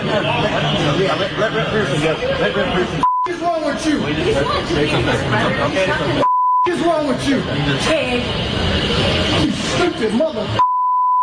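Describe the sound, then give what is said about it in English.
Censorship bleeps cut into loud, continuous speech during a confrontation with a law enforcement officer: three steady, high tones replace words, each briefly interrupting the talking. “We're going to have to bleep out what he said to this fine law enforcement officer”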